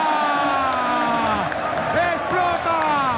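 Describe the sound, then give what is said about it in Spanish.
A stadium crowd at Camp Nou in Barcelona erupts in cheers as Barcelona celebrate a league title after a Clásico. The loud, continuous roar is laced with sliding whoops and shouting voices. “¡Explota el Camp Nou! ¡Bailan los jugadores del Barcelona! ¡Han hecho historia en este clásico!”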